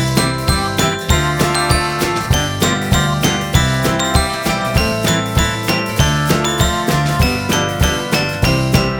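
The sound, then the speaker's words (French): Three little bells jingle in a steady, rhythmic pattern, with bright repeated tinkles over sustained ringing tones. The sound is loud throughout, and no one speaks. “trois jolies petites clochettes qu'il a bien voulu me prêter, et on les entend tinter.”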